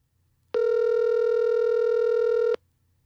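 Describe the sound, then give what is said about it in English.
A telephone line gives a single steady electronic tone while a call is being dialed. The tone is a clear mid-pitched hum that starts abruptly, lasts about two seconds and then cuts off into near silence. “Okay, let me dial here.”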